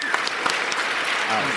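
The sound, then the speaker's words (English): An audience stands and applauds a guest with a dense, even patter of many hands clapping, while voices call out over it. “will you stand up and give her a round of applause?”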